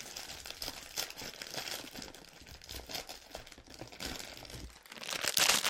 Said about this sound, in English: I don't like the packaging. It's very crinkly foil. Yeah, it's a loud packet.